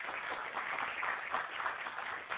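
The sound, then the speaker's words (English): Audience applause for speakers at a session: steady, dense clapping that holds an even level throughout, with no voices over it. “So one more round of applause for our excellent speakers from Oregon.”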